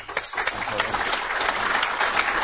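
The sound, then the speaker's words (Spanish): Audience applause in a cultural centre hall as a credential is handed over: dense, even clapping continues throughout at a moderate level, with no clear pause. “Ahí está entonces la primera credencial entregada entre los aplausos de los asistentes que han llenado la sala Benjamín Carrión de la Casa de la Cultura.”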